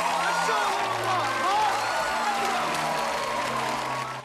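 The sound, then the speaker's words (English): An audience gives a couple a standing ovation, with dense continuous clapping and crowd cheering forming a loud, steady wash that tapers off at the very end. “The couple receive a standing ovation.”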